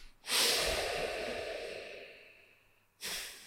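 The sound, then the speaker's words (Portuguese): Breathing during a breathing exercise: one long, airy breath that starts abruptly and fades gradually over a few seconds, then a second breath begins sharply at the end. “Inspiramos rápido.”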